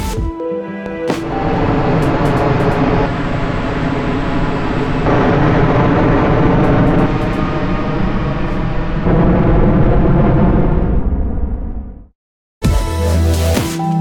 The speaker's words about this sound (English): The C-Series jets emit 20% less CO2 and 50% less nitrogen oxide than similar types of aircraft. And the noise level has been cut by half.